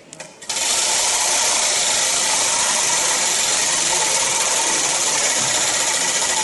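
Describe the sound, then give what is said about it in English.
A prize wheel spinning with a fast, continuous clicking rattle. It starts abruptly after a brief quiet moment and stays steady and loud to the end. “I'm spinning the Wheel of Eight.”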